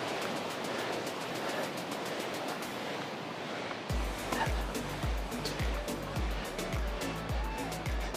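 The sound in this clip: Rushing water of the Ljubljanica river flowing nearby, east of Zalog, a faint continuous hiss that runs throughout, joined in the second half by a series of regular low thumps.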